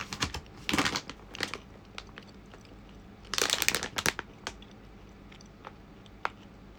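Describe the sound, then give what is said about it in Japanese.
Someone chews almonds, with the teeth squeaking on them, heard as faint crunching that comes in a few dense bursts with scattered single clicks in between. “なんでアーモンドって噛むと歯がキュッキュッって言うんだ”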